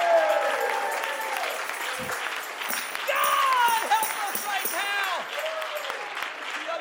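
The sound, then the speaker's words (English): Congregation clapping while standing during a church service: dense, steady applause that runs the whole time, with voices rising over it. “I felt in the Holy Ghost right then as you were standing and clapping.”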